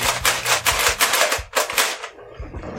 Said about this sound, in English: It's a pump action. And it's got slam fire, so you just hold down the trigger.